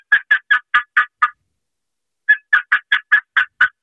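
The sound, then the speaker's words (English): Turkey box call played with improper rhythm: quick, evenly spaced, raspy yelps, six in a row, a pause, then eight more at the same hurried, mechanical pace. “If you have a box call and you're running a box call and you run it with this type of rhythm,”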